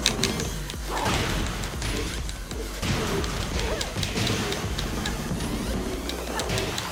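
Fighting hits and impacts from the Tekken video game: loud, rapid thuds, smacks and swishes packed densely together over a continuous bed of game sound.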